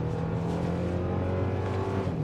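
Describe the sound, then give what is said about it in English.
A car accelerates in sport mode, its engine giving a steady, droning note with strong low harmonics. The sound holds fairly constant in loudness across the short stretch. “let me accelerate first before I finish my thought. There it goes. You can even hear a little bit of turbo whine.”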